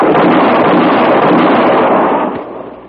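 A rifle shot in a radio-drama gunfight booms loudly as a single blast, then rolls on as a long, dense rumble that fades out near the end.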